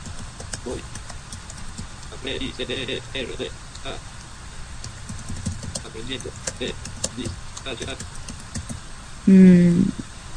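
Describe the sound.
Typing on a computer keyboard: irregular, light clicking keystrokes in quick runs and pauses, with a louder, heavier thump near the end.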